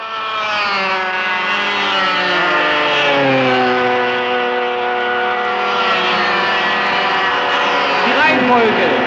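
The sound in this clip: Racing motorcycles, Kreidler and Suzuki machines, with the race leaders coming down to the Steinbachsee: a loud, sustained, high harmonic engine whine whose pitch shifts as the bikes pass.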